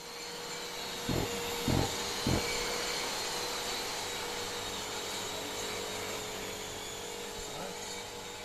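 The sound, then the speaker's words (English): Machines and workers tear down a graffiti-covered wall facade during renovation: a steady, continuous mechanical whirring roar with three heavy thuds near the start. “That's the sound of machines and workers tearing down the facade of the wall, removing all the graffiti as they renovate the entire space.”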